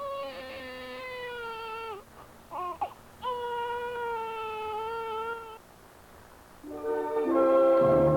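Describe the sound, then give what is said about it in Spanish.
An infant cries in several long, high wailing bursts, broken midway by a short choppy sob, then a louder cry swells near the end, with no talk over it. “Al decir esto, el niño dejó de llorar y empezó a reírse.”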